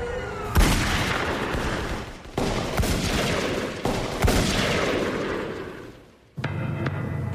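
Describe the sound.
Gunshots in an audio drama, several loud bursts of gunfire with sharp onsets and long rumbling tails, dipping briefly quiet before one last burst.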